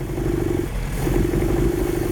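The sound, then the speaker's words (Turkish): Car engine running roughly with one cylinder not firing after a spark plug lead came off the distributor cap, giving a steady, uneven, low chugging throughout. “Çalışıyor ama iyi görünmüyor. Yani güzel çalışan aracımız. Koşmaya pek de hazır değil. Sorun burada. Dördüncü silindir ateşlemiyor.”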